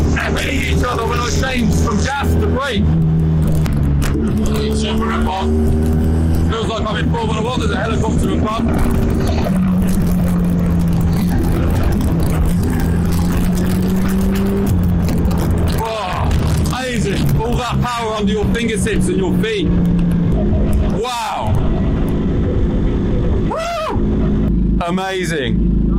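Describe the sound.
A low sports car engine roars right behind the driver, droning loudly and shifting in pitch as it revs up and down, with a voice heard at times over it.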